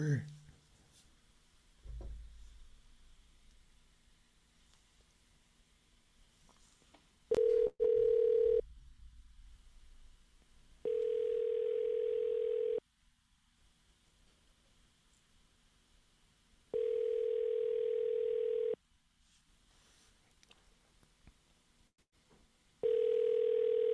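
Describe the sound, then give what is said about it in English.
Telephone call tones: brief dialing beeps followed by a steady ringback tone sounding in long, evenly spaced pulses, three of them, with the last cut short. “Let's give him a call.”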